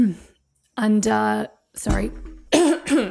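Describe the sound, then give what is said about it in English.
A single short, rough cough interrupts a person's speech, with talking before and after it. “just have to cough.”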